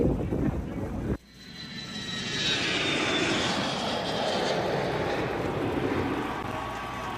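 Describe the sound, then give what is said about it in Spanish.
An airplane engine roars as the plane lands. After an abrupt cut near the start, a broad rushing drone swells and holds steady, with a thin, high whine running above it. “Allí el avión de Alexander Brazón finalmente logró aterrizar en el audio de Madeleine García”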